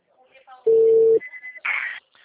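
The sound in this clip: A telephone call produces a loud, steady tone for about half a second, then a few brief higher beeps and a short burst of hissing noise.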